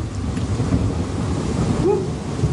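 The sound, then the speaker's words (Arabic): Thunder rolls during a rainstorm in a continuous deep rumble, with steady rain hiss underneath and no clear individual claps. “بتشوف لمحة البرق قبل ما تسمع صوت الرعد”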